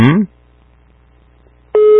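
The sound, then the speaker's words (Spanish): A telephone ring tone on a placed call starts near the end as a steady, buzzy mid-pitched tone. It comes after a brief voice at the start and a stretch of near silence. “Vamos a ver si tienen la respuesta correcta. Ahí está la primera timbrada.”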